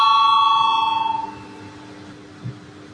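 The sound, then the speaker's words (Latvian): Electric bell rung in a parliamentary chamber before a vote: a bright, rapidly trilling ring sounds loudly for about a second, then fades into low room noise, with one faint thump afterward. “Lūdzu zvanu”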